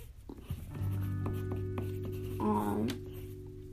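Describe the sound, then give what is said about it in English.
A pen writes notes on paper, making faint, irregular scratching strokes over a low steady hum. “So, I'm just going to finish writing down the stuff that I said in the last segment.”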